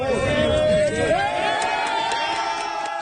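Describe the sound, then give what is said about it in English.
Crowd cheering and shouting as a rescue team from Spain pulls a survivor from the rubble of a collapsed building, a busy babble of voices with a speaking voice over it. “cheers as a rescue team from Spain pulls a survivor from the rubble of a collapsed building in an area hit hard.”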